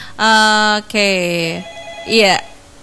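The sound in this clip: A telephone rings for an incoming caller to a radio show, sounding as a few loud, steady tonal bursts separated by short gaps.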